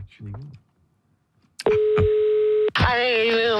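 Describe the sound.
Telephone sounds as a call is placed to a radio call-in line: a brief voice, then a click and a steady dial tone lasting about a second, followed by a harsher buzzing tone.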